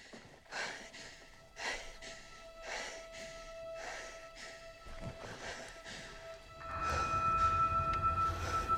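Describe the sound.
Heavy, out-of-breath panting from a film trailer set in the desert: a steady run of loud breaths, roughly one per second, over sustained music tones that swell toward the end.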